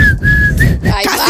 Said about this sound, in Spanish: ¿El silbido?